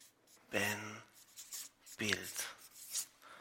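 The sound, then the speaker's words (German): Handwriting of the German word Ebenbild: faint, scratchy pen or marker strokes that come in short stretches and are mixed in with quiet talk. “Ich schreibe daher Ebenbild.”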